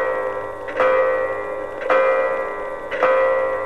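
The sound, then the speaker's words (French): A clock strikes the hour with heavy, bell-like strokes. Three evenly spaced strikes about a second apart ring out over a sustained humming resonance that carries through the whole clip. “Et quand 1 heure encore fut passée et que l'horloge sonna 4 gros coups,”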